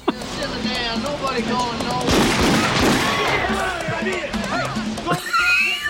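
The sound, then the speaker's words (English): Gunshots fired into a ceiling during a TV show scene: several sharp, loud cracks in a cluster near the middle, amid shouting and a busy, noisy scene. “I love when Sam runs in to get them out, and his solution is to just shoot the ceiling.”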